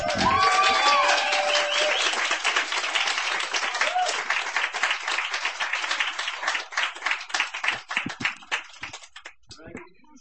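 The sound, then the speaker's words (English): Audience applause at a reading as a performer is welcomed to the stage: loud, dense clapping from a crowd with a voice over its start, thinning into scattered claps before fading out. “Ladies and gentlemen, give him a hand. Please welcome Raggy to the stage.”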